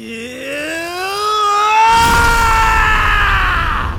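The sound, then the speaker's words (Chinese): A deep, angry roar from a man that grows steadily louder and climbs in pitch, turning rougher and noisier in its second half before holding steady, with no speech. “一声低沉的怒吼从唐三口中响起，渐渐的，吼声逐渐变得嘹亮起来”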